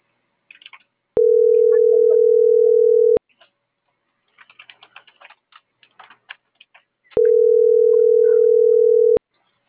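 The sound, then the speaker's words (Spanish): A telephone tone plays while a call is being placed. It sounds as two steady, identical tones of about two seconds each, separated by a gap of roughly four seconds, with faint clicks of typing in between. “Entonces, ahorita te voy a marcar para los números de viaje.”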